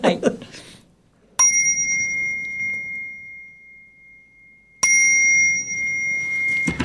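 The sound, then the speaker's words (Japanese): A bell rings twice, each bright, high strike sustaining and slowly fading over several seconds, with brief voices just before the first strike and at the very end. “クリスマスソングに合わせて別の鐘鳴りましたね。”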